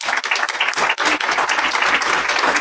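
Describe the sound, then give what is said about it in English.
Audience applause for a gathered group, a loud, continuous patter of many hands clapping, holding steady with only brief dips. “So I think you should give yourselves an applause for being who you are and how awesome you are.”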